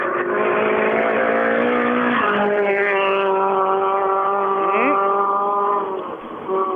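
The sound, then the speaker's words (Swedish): Volvo race cars roar past, running tight and close together on a circuit. A loud, sustained engine drone with layered harmonics and small pitch shifts, easing slightly near the end. “Ja, de, de kör ju tajt och tätt de här Volvo-åkarna.”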